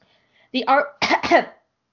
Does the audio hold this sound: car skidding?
no